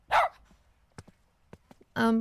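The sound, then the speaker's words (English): Dog barking: two sharp barks separated by a quiet stretch with a few faint clicks, the second bark more tonal and sustained than the first. “I really need you to remove that dog.”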